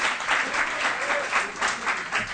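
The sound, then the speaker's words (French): An audience applauds a panelist at an evening panel event, with steady clapping that swells and eases in a few soft pulses and no talk over it. “On l'applaudit pour sa participation.”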